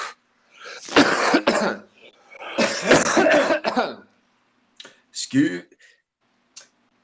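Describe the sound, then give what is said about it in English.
A cough and throat clearing come in a few short, sharp bursts just after stretches of speech, with a stronger double burst in the middle and a faint final one. “Excuse me, I had a little Melania piss in my throat. Had to get that out.”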